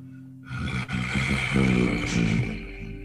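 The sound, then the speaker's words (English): A voice imitating the growl of a big black wolf with red eyes, a low, rough, sustained snarl of a few seconds that grows slightly louder midway. “You turn around and it's that big black wolf standing behind you with its red eyes glaring directly at you.”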